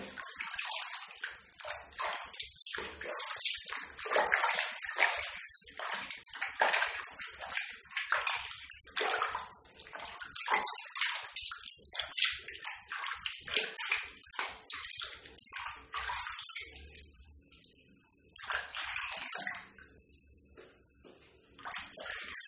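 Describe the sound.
Water splashes and sloshes in a tub while a dog is washed, with many irregular pours and splashes that swell and fade, then thin out into quieter drips and trickles toward the end.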